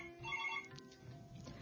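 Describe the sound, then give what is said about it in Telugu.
A telephone ringtone signals an incoming call, a faint, brief burst of bright warbling tones that fades quickly into low background hum. “మనకు call వస్తుంది, call మాట్లాడాక మళ్ళీ continue చేసుకుందాం.”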